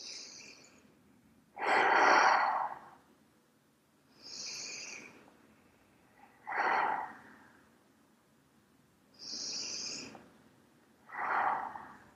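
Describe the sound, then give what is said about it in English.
Slow, deep human breathing: about three full breaths, each a drawn-out airy rush, with louder and softer passes alternating and long quiet pauses between them. No voices. “Just take three breaths.”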